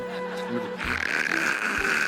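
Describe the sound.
A voice imitating snoring: a few rasping, breathy snorts over a steady hiss, with two low rumbling pulses, moderately loud and brief.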